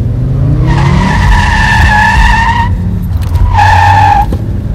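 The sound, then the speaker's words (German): Car tires squeal loudly while cornering on Storrow Drive, in two drawn-out screeches, the first long and the second shorter, over a low rumble of engine noise. “Ich nahm die Kurven auf dem Storrow Drive mit quietschenden Reifen.”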